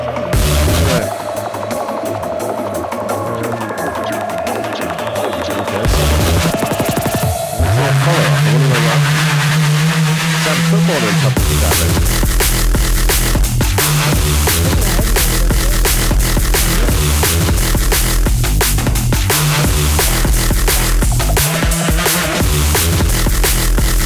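An electronic music remix plays loud and dense, with harsh, distorted, roaring textures that hold steady throughout and shift in tone partway through.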